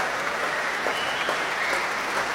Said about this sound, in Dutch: Een groot applaus nu ook voor al die verschillende muzici van het orkest.